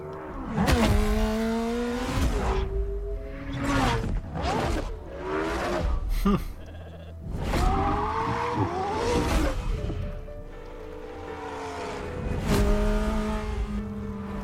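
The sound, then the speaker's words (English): Racing car engines from a racing video game trailer roar and rev through several passes, with whooshing fly-bys and tire squeal. The pitch climbs and drops repeatedly as the cars accelerate and shift. “Oh, that's right, there was a new Forza Horizon as part of that leak, wasn't there?”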